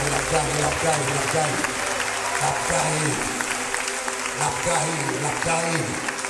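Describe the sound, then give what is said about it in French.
An audience applauds during a worship service, with dense, sustained clapping running throughout while a voice speaks or chants over it. “nous applaudissons mon Seigneur”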